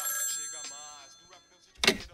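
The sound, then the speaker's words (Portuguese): A telephone rings while faint voices are heard over the ringing, and a short, louder burst of noise comes near the end. “O telefone tá tocando ali, mano.”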